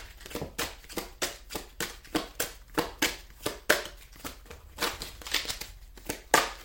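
Tarot cards being shuffled by hand: a rapid, steady run of many crisp, papery riffles and slaps, evenly paced throughout, with no talking.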